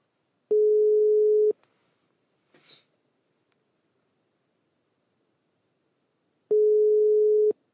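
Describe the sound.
A telephone ringback tone sounds while a call is being placed: two steady, mid-pitched tones, each about a second long, separated by several seconds of quiet. A brief faint rustle falls between them.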